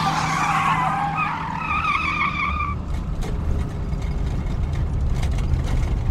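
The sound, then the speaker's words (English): Car tires squeal loudly as the car pulls away on an unmarked desert road in the dark, and the squeal gives way to a low, steady engine rumble. “As he drove out into the dark desert on an unmarked road”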